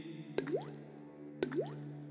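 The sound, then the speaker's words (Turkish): Water drips twice about a second apart, each drop a crisp tap followed by a rising, bubbly plop, over a steady low hum. “Su sesi, dünyanın ortak sesi.”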